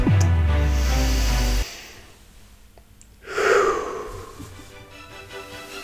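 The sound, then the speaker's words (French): A deep, airy breath drawn in, heard alone as one loud intake that tapers off. It follows a sustained low tone that cuts out, leaving a short quiet gap before the inhale. “Et pourquoi pas commencer tout ça avec une grande inspiration.”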